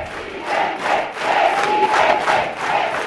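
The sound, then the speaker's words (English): A theater full of women cheers a welcome for a political candidate. The crowd's shouts rise and fall in repeated rhythmic surges, loud and continuous, with no single voice standing out. “A theater full of women give Mocos a big welcome on a recent night.”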